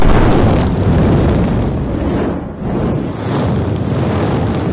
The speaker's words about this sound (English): Feel the heat with scorching fireballs.